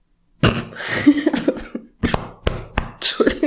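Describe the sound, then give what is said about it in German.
Harsh coughing from someone who has just choked on a drink: an opening sputtering fit, then several sharp, separate coughs in quick succession. “Entschuldigung. Ich habe mich gerade verschluckt. Ich wollte was trinken.”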